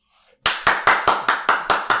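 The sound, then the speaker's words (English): Loud hand clapping from the king, a character in a tabletop role-playing game: eight sharp, evenly spaced claps in a steady rhythm, after a brief faint sound. “The king is clapping very loudly.”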